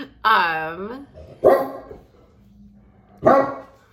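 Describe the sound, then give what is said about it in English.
A dog named Frank barking three times, the first a drawn-out, wavering yelp and the next two short, sharp barks, all loud and spaced apart. “really, Frank? He's been quiet this whole time, and as soon as I start talking to the camera, he decides to bark too.”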